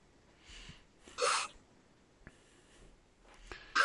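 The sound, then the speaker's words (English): A woman lying on a table takes a deep, gasping breath and then pants. A faint breath comes first, then a loud, sharp intake, quieter breaths after it, and another sharp gasp at the end. “she breathes in a deep breath. And lays there for a second, panting on the table.”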